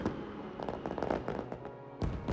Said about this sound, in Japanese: でも少し離れて見る花火もいいね。